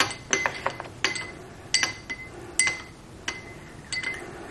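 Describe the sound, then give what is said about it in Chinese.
Sharp clinks of a spoon against a glass as herbal ginseng powder is stirred into water, many quick faint taps in an uneven rhythm with no talk. “这个是粉， 香参粉， 香参粉， 嗯， 全倒进去。搅拌，”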